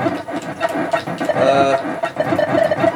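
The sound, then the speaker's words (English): Birds cluck repeatedly amid busy electronic video game sound effects, with short, choppy calls rising and falling throughout. “these weird cylinder things at birds. For some reason, this game hates birds.”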